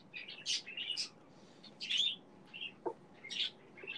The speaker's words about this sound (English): I could just hear your birds having a whole ass conversation.